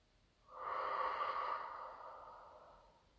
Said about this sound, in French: Inspire. Expire.